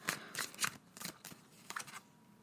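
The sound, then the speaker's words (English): Tarot cards rustling as one is drawn from the deck, heard as a series of short, papery swishes and flicks in uneven bursts, fairly soft and with no voices. “you guys know the drill. Let's pull a card for the week.”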